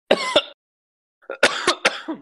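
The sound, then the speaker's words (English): Coughing after choking on saliva: two sharp coughs, a short silence, then a quicker run of several harsher coughs. “Excuse me, I just choked on my spit.”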